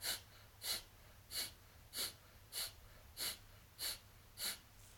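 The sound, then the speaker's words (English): Rapid, forceful exhales through the nose, breathy puffs in a steady train of eight bursts about 0.6 seconds apart, each short and even in loudness. “So it's like a rapid out-breath through your nose,”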